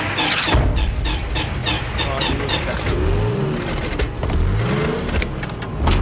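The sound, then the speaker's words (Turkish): A cold car engine with condensation on its spark plugs runs and revs steadily, its droning pitch swelling up and down in a few rising sweeps over a constant rumble. “Çalıştır bakayım. Motor ısıt, soğumuş. Bujilerde yoğunlaşma var.”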